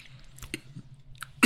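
Someone chews strawberries, making soft, wet crunching and smacking sounds in a few quick bursts. The last bite is the loudest.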